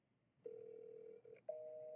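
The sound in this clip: Phone ringback on a call to an 800 number: a steady electronic tone holds for under a second, pauses briefly, then a second, higher-pitched tone starts and carries on to the end, quiet and alone.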